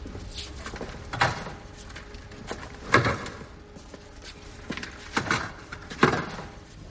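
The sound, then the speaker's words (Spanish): Elevator doors sliding shut in a film scene. A few muffled thumps and rumbling knocks are spread over several seconds, with quieter rattling in between. “Las puertas del ascensor se cierran.”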